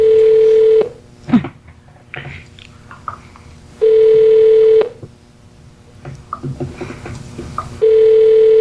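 Telephone keypad tones on a hotel phone line: three long, steady, mid-pitched beeps, each about a second long and fairly loud, separated by several seconds of quieter line noise.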